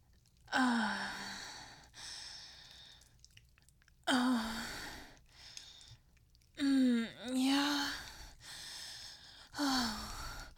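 A person moans in a series of breathy moans and sighs, each drawn out, with some pitch slides, separated by short quiet breaths.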